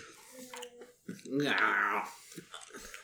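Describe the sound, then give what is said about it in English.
A little boy chewing on something, soft wet munching and mouthy smacking sounds mixed in with adult talk. “What are you chewing on? What are you chewing on? He's chewing on something, all right.”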